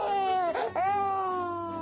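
A baby cries in a sustained, wavering wail that breaks off briefly and then resumes, carrying on steadily to the end.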